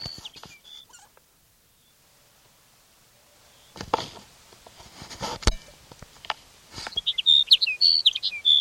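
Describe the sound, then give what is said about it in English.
A sage sparrow sings in short bursts of high, tinkling chirps at the start and again near the end. Scattered clicks and rustling fill the quieter stretch between the phrases. “Here's sage sparrow number one for the day.”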